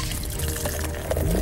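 Extra stout beer being poured, a brief, soft, steady flow of liquid with a gentle gurgle lasting under two seconds.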